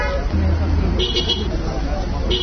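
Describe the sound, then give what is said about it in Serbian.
Car horns honk in greeting from drivers passing at midday through a new 150-metre road tunnel beside Golubac Fortress. Two horn blasts sound over a steady low rumble of traffic. “Sirene automobila su značile pozdrav za sve vozače koji su oko podne prošli kolima kroz novi tunel neposredno uz Golubačku tvrđavu.”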